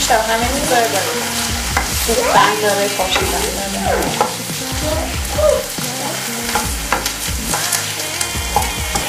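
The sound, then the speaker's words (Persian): Food frying in sizzling oil is stirred and turned over, a loud, steady sizzle running throughout with repeated scraping stir strokes on top. “خب من دارم زیرو رو میکنم اینا رو تا اونجایی که میتونم.”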